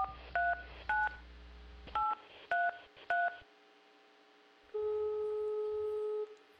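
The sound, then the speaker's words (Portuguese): Telephone keypad tones as someone dials a woman's number: five short dual-tone beeps in an uneven rhythm, followed by a single longer ringing tone. “Já sei, vou ligar para ela.”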